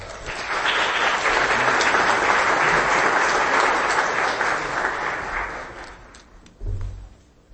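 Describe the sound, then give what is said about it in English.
An audience at a church youth gathering welcomes a speaker with loud, sustained applause that holds steady for about six seconds, then thins out and fades, with a low thump near the end. “Can you give a warm welcome to Shane Zeglich?”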